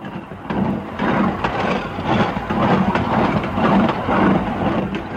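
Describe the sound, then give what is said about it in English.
A narrow-gauge railroad train climbs a mountain track from Skagway up over the White Pass, with a steady, loud, dense rumble and rhythmic clacking of wheels that runs throughout. “that is the sound of another train, today's narrow-gauge railroad as it climbs the track that runs from Skagway up over the White Pass Trail of 98”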